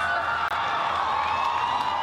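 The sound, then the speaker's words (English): Loud, sustained crowd applause with cheering as a woman is quickly ushered to her seat after her speech. The dense wash of sound runs unbroken for about two seconds. “As you'd expect, there is a thunderous applause as she is quickly ushered to her seat.”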